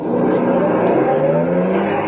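A car drives off and accelerates, giving a loud, steady engine roar that holds without pause from start to finish.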